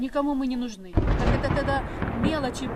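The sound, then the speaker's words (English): An artillery shell exploding in Mariupol, a deep, rumbling boom that bursts in under a talking voice and rolls on while the speech continues. “Tatiana Bushlanova no longer flinches at the sound of exploding shells.”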